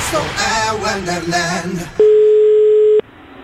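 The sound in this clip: Telephone tone of an outgoing call: after a stretch of voices talking, a single steady mid-pitched tone sounds alone for about a second, then stops.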